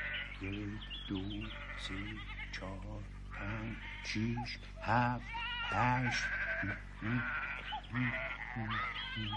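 A flock of sheep bleats continuously, with many overlapping, wavering calls of varied pitch, some higher and some lower, over a constant low hum.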